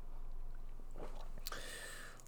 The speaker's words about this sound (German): Verzeiht mir, dass ich einen Schluck Kaffee zwischendurch nehme.